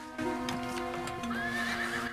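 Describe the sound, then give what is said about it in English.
Horse neighing at a house: a single loud, wavering whinny lasting about two seconds, heard alone without voices. “Alerted by the horse”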